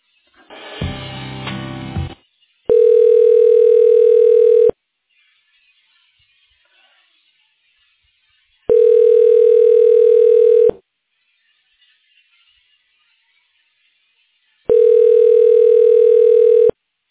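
A telephone line tone plays while a call is transferred to an office voicemail system. After a short burst of line noise, three loud, steady tonal bursts of about two seconds each sound, separated by roughly four seconds of silence.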